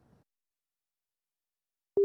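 A single short, steady, mid-pitched telephone line tone sounds near the end as a call reconnects. It follows near silence and a faint murmur at the start.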